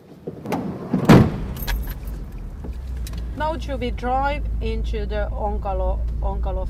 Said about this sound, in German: Wir fahren jetzt nach Onkalo hinein, unserem Endlager für verbrauchten Nuklearbrennstoff.